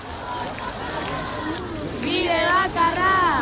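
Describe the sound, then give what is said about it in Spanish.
Keys jangled by thousands of marchers at a housing protest in Basque city streets, a continuous metallic rattle under crowd voices and shouts that grow louder in the final second. “ese era el sonido de una de estas manifestaciones. Miles de personas recorrían llave en mano las calles de San Sebastián, Vitoria, Bilbao para reivindicar que no se utilice la vivienda como un negocio.”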